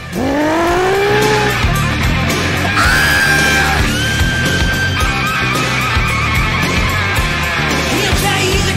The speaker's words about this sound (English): does this car really have a jet engine in it?